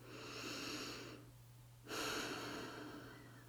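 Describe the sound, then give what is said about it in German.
A small but deep breath is taken, heard as two soft, airy, breathy sounds separated by a brief silent pause. Both are faint, with a low steady hum beneath, and no one speaks. “Nimm gemeinsam mit mir einen kleinen, aber tiefen Atemzug.”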